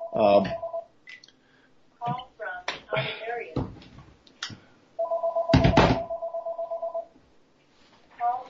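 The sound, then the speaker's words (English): A telephone rings in two bursts of loud, warbling electronic trills: a short one at the start and a longer pulsing one later. A voice talks in the gap between them. “Sorry about the noise there, folks. Sorry for that distraction. Should have disconnected that phone before we began here today.”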